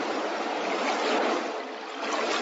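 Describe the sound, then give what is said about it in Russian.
Sea at the Barcelona waterfront on the feast day of St John the Baptist: a steady, broad wash of water that swells gently and dips slightly near the end, with no voices. “Ваша милость, сеньор Дон Кихот, я никогда не думал, что море такое огромное. Честное слово, оно будет побольше лагун Руидеры в нашей Ла-Манче.”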